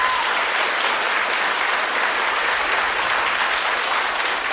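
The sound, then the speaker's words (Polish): Studio audience applause at a radio station's live stage concert, a steady, dense wash of many hands clapping that stays even and loud without pause. “Brawa! Pozdrówmy ich.”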